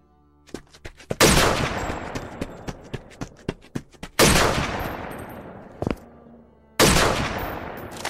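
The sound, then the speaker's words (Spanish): Gunshots in a battlefield scene where a soldier is killed: three heavy, booming shots with long decaying tails, separated by lighter sharp clicks and taps. “Y con el presionar de un gatillo, la muerte cobra la vida de un soldado.”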